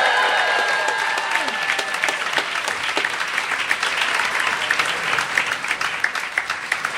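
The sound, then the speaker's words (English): Audience applause greets three hosts being welcomed onto a stage at a live show: sustained clapping from a large crowd, dense at first and then with individual claps standing out, holding fairly steady throughout about seven seconds. “So please put your hands together and welcome to the stage, Hang Up and Listen, Josh Levine, Mike Pesca, and Stefan Fatsis.”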